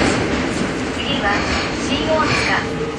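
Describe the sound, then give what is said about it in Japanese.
A Tokyo Metro Marunouchi Line subway train runs with a steady, loud rumble and rattle, while a recorded onboard announcement plays over the noise throughout. “東京メトロ丸ノ内線をご利用いただきましてありがとうございます。この電車は行楽駅、茶の湯、東京の銀座方面、次は”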